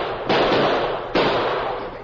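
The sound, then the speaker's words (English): Two loud, sharp gunshots crack about a second apart as a gun is shot out of a man's hand. Each blast has a long ringing decay that trails off before the next. “Say, did you see that? The masked man shot the gun out of Pokey's hand.”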